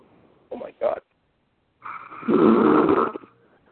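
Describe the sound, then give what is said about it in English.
Loud, heavy breathing fills a room: two short rasping breaths, a pause, then a long, harsh, snore-like exhale that rattles in the throat. “Who's breathing like a gorilla, yo? There's no need for that.”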